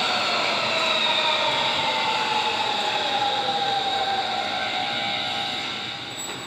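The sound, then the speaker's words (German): A commuter train pulls into Othmarschen station with a loud, steady rumble and long, high wheel squeals drawn over it. The noise eases slightly near the end. “komm schnell, das ist unsere Bahn.”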